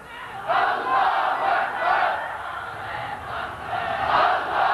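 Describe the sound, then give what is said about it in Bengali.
A crowd shouts the takbir slogan "Allahu Akbar" in answer to a preacher's call, loud massed voices rising in repeated surging bursts with no single speaker standing out. “মুসলমানের জীবনে শ্রেষ্ঠ slogan, নারে তাকবীর, আস্তে বললেন কেন?”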